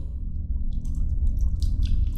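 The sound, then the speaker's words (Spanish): Water splashing in a well outside a house: soft, scattered sloshes and drips over a steady low rumble, growing busier toward the end. “Se produjo otro ruido fuera de la casa, una especie de chapoteo en el agua. Debió de haber sido en el pozo.”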